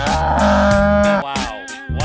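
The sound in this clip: A cow moos with a long, loud, low bellow. After a short break, shorter lowing calls follow.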